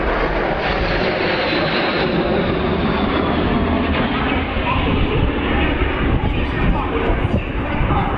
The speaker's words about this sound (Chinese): 两架轰六轰炸机在我们头顶上呼啸而过